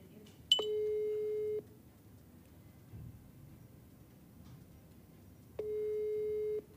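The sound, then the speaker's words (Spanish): Ringback tone of an outgoing telephone call: two steady, faint electronic tones, each about a second long, separated by several seconds of near silence. “Deja ver si me contesta, deja ver si anda en señal.”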